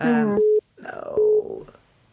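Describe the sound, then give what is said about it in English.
A mobile phone rings in the background as two brief, steady electronic tones at the same pitch, interleaved with a person talking. “if you could hear that, that was my phone going off in the background”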